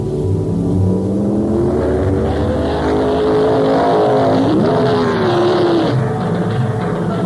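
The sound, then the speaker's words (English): Engine of a brand new 1972 Ferrari Dino 246 GT Pininfarina sports car being driven: a loud, steady, continuous drone with one brief upward pitch shift midway, heard alone without talk. “As unbelievable as it may sound, price package number 158 is a brand new 1972 Flaming Fire Red 246 GT Pininfarina Dino Ferrari.”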